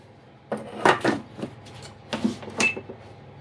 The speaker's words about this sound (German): Also, jetzt gehen wir unser Fleisch rein. So. Deckel wieder drauf.